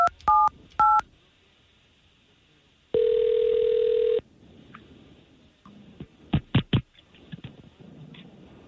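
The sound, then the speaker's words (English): Touch-tone beeps of a telephone number being dialed: a few short, sharp dual-tone bursts. A long, steady mid-pitched tone follows, then scattered soft clicks and a cluster of quick taps near the end. “we're going to try to call this young lady and see if we can't talk to her first”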